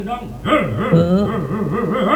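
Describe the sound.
A person imitating a dog with a drawn-out, wavering vocal sound whose pitch swoops up and down repeatedly, like a whining howl rather than separate barks, continuous throughout at a moderate level.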